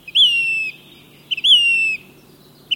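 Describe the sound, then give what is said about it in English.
Say's Phoebe calling on a rocky talus slope: two clear, plaintive whistles, each about half a second long, that slide gently downward in pitch. A third call begins right at the end. No voices. “They often share the slope with birds such as Say's Phoebe”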